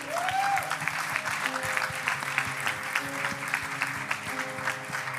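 A church audience applauds to welcome a pastor, a dense, steady patter of many hands clapping without pause throughout.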